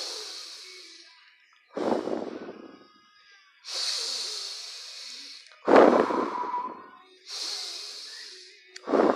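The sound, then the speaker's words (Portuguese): Three deep breaths taken in slow succession, each long hissing inhale followed by a heavier, rushing exhale, with a fresh exhale just beginning at the end; no speech. “Respira fundo, vai dar aquela respirada fundo três vezes.”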